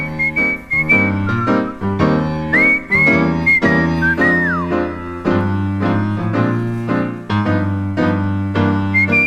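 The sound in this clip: A person whistles a bright, lilting melody in clear sustained notes with slides and a falling glide, over a steady instrumental backing of repeated chords.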